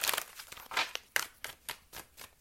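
Tarot cards being handled and pulled from a deck, giving a series of crisp, papery rustles and snaps at a fairly even rhythm, quiet and without talk.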